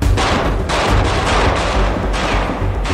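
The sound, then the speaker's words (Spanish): Gunfire in a prison battle with shots coming from all sides: a dense, loud, continuous volley of overlapping shots, with sharper bursts standing out at irregular moments and no voices. “Los disparos parecen venir de todas partes.”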